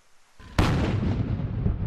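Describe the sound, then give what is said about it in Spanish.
Cannon fire from a 90-gun salute for a monarch's 90th birthday in London: a sudden loud boom after a faint rumble, then a long, heavy rumbling decay. “En Londres, un saludo a 90 cañonazos”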